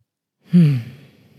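A slow breathy exhalation during a singing exercise, starting firmly with a slight voiced tone that slides downward, then thinning into fainter, uneven breath as it trails off.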